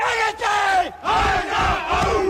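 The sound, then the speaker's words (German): A goalball team from Rostock shouts together to psych itself up before a match: loud group cries from several voices in two long, sustained bursts. “Und wie sich die Rostocker vor einem Spiel so richtig heiß machen, das hört sich so an.”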